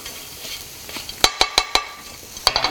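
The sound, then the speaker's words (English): Butter sizzling in a pan with Thanksgiving leftovers: a soft, steady frying hiss is broken by a quick run of sharp clinks from a utensil against the pan, then a second short cluster of clinks near the end. “And I'm just gonna add a little bit of butter to this, just to soften everything up and make this super delicious.”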